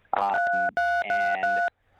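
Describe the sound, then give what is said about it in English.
A few touch-tone beeps from a phone's keypad, pressed accidentally during a call. Each steady dual-tone beep sounds alone in quick succession, then stops. “Something's going on where you keep on pushing the touch tones on your phone. I don't know if it's your cheek or what kind of phone you're on.”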